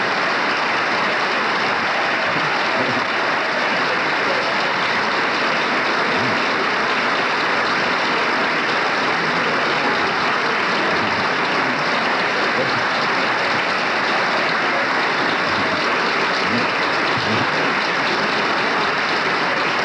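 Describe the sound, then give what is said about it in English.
Standing applause from members of the House of Representatives for the House minority leader: a dense, steady wash of many hands clapping, loud and unbroken across the whole stretch, with no voices rising above it. “Gerald Ford's colleagues are on their feet applauding”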